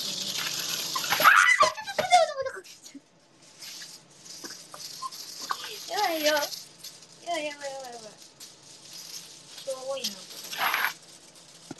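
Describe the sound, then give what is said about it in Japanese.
Crinkling and rustling of aluminium foil handled in a kitchen while preparing food to steam-cook, loud bursts of crisp crackle at the start and again near the end, with a voice speaking in between. “アルミホイル、アルミホイル。”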